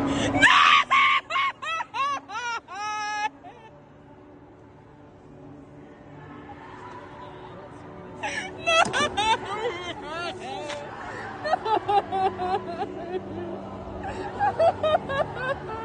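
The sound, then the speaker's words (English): High, wavering wails and sobbing cries from a young woman in tears at a concert where a pop song is being sung, loud over the first few seconds, then crowd chatter and more cries. “one of the girls who had obviously set up the camera to capture this moment just descended into fits of tears, wailing, crying.”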